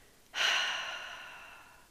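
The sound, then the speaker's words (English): A single long exhale lets the breath go completely during a calming guided meditation. It starts abruptly as a soft, airy rush and fades slowly over about a second and a half. “So exhale completely, let the breath go, let it out.”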